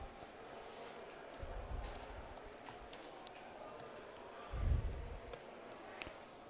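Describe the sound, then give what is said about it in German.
Soft typing on a computer keyboard while a README file is edited: many faint, irregular clicks and taps, with a couple of brief low thuds in between. “Ich gehe jetzt also in den README-Dinger rein. Schreibe noch was dazu.”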